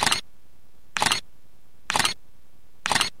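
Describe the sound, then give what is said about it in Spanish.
A camera shutter clicks during a safari, firing four times at an even pace of about one per second. Each click is a crisp, bright burst with near silence between. “Me voy a acercar para sacar una mejor foto.”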